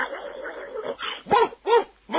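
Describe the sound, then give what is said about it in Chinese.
A human voice imitates dogs barking, giving a quick series of several sharp, yelping woofs at a loud level, each bark a short tonal burst with brief gaps between. “汪汪汪汪汪，是人喊狗吠。”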